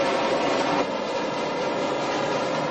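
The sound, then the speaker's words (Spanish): A subway train arrives at a station platform with a steady, dense, rushing roar that is slightly louder in the first second, then holds level, with no voices. “El tren llega al andén contrario.”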